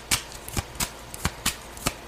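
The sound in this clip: Playing cards are shuffled and drawn during a card reading, a quick series of crisp, papery snaps and flicks at an uneven pace.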